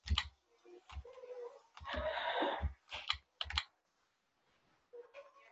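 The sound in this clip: Computer clicking and tapping comes in a few irregular clusters of sharp clicks with short gaps between them, faint and alone.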